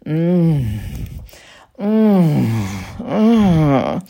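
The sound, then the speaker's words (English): Closed-mouth moaning, demonstrated as sounds to make during sex: a voice gives three drawn-out hummed moans with short pauses between them. The last moan wavers up and down in pitch. “You can try some closed mouth sounds like”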